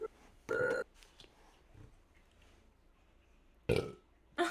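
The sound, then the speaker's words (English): Loud, raspy burps, one early and another near the end, separated by a long faint stretch; a further burst begins right at the close. “I'm gonna, burp.”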